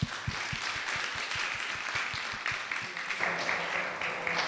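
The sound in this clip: A church audience applauding to welcome visiting guests: dense, steady clapping throughout, with a few distinct, evenly spaced claps standing out early on.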